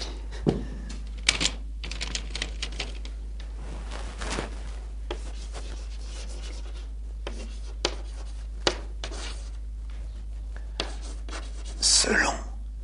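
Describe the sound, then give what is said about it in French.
Chalk writing on a classroom blackboard during a lecture: many soft, scratchy strokes and light taps at an uneven pace, with a louder scraping flurry near the end. “Je vais les écrire au tableau pour que vous les voyez mieux.”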